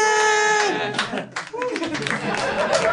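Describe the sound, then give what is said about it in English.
Polite, scattered audience clapping greets news of an upcoming wedding at a comedy show. A voice talks first, then light clapping mixes with chuckles and murmured chatter at moderate loudness. “Polite clapping for impending nuptials.”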